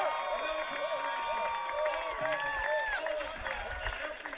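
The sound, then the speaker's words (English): A large crowd of supporters cheers at a Beto political rally of some 55,000 people, a steady, dense roar of voices and shouts that stays loud throughout without a clear break. “As 55,000 people cheered for Beto and danced to Willie Nelson”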